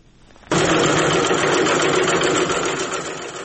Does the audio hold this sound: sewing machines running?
yes